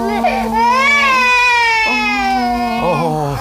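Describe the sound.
Infant crying on his hundredth day after feeding: a loud, sustained wail with strong tonal harmonics and a pitch that swells and dips across a few breath breaks.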